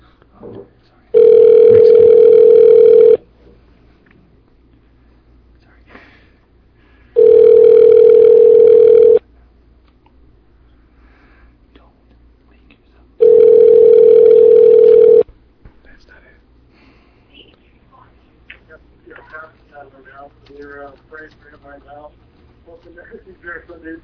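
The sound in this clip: Telephone tone heard during a prank call: three long, steady, mid-pitched tones of about two seconds each, separated by quiet pauses. Soft voices and talk follow after the last tone.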